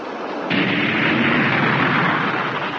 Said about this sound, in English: All jets firing.